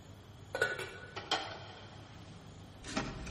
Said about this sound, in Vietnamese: Đó là tiếng cái nắp nồi bằng inox nó rớt xuống đất.